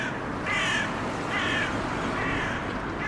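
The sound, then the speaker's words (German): Crows cawing in the Kreuzberg district of Berlin: three harsh, drawn-out caws at a steady pace over a constant low city hum. “Jetzt erst einmal in die unmittelbare Gegenwart, zu den Krähen von Kreuzberg.”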